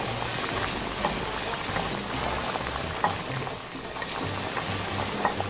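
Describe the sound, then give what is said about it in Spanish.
Breaded milanesa de migajón, coated in beaten egg and breadcrumbs, frying in hot oil with a steady, dense sizzle and scattered small pops and crackles throughout. No voices. “Lo voy a poner a empanizarlo con el pan molido. Y ahora sí, ya le toca ir al aceite.”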